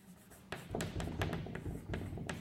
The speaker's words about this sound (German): Ich muss noch ein bisschen weiter so schreiben.